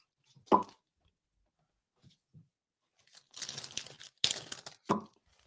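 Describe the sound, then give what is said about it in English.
Adhesive tape is pulled and stuck down tight across the top: a quick crackle, a few faint ticks, then a longer rasping pull and a few sharp sticky rips, fairly quiet and with no talk. “One piece of tape there. One piece of tape there. See? Tape. Oh, yeah. Yep. Nice and tight across the top.”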